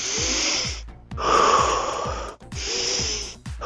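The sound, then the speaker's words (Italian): Deep, loud breathing during an intercostal breathing exercise: several long, rough breaths with a slightly wheezy hiss, each separated by a brief pause, with no talk. “Dobbiamo semplicemente respirare”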